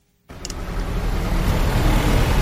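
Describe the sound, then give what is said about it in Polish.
Steady traffic on a main street in eastern Mosul, with cars squeezing past one another: a dense, continuous low rumble of engines and tyres that starts abruptly after a brief silence and holds level to the end. “Jedna z głównych ulic we wschodniej części Mosulu. Samochody z trudem przeciskają się obok siebie.”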